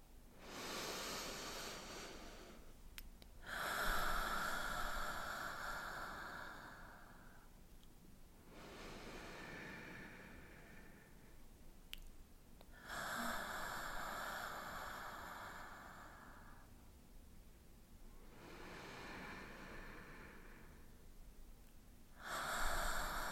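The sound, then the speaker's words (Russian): Slow deep breaths, drawn in through the nose and let out through the mouth, come as quiet airy rushes that rise and fade in a steady cycle, repeated a few times. “Мы начнем с трех глубоких вдохов и выдохов. Вдыхаем через нос, выдыхаем через рот.”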